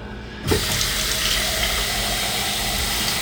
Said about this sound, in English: And we are going to make some coffee. Oh, you should rinse this out first.